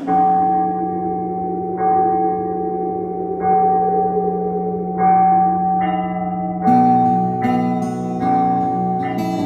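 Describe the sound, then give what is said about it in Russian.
Church bell rung at a monastery, struck again and again in a steady run of ringing, layered tones. The strikes come closer together and sound brighter in the second half. No voices are heard. “Надо идти в колокол звонить. Ну, подымайся, звонарь!”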